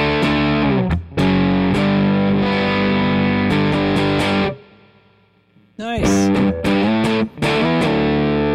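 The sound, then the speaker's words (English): An electric guitar plays through an amplifier's own overdrive with a boost cranked way up, giving thick, buzzing distorted chords that ring out, fade into a short lull, then return as choppy, punchy strums. “This is a like stupid boost idea. Way up. This is all amp drive you're hearing.”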